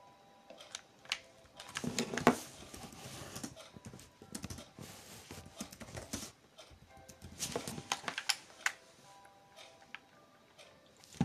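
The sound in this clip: Keyboard typing while rewriting a sign in Minecraft: many quick, light clacking keystrokes in irregular bursts with short pauses between them.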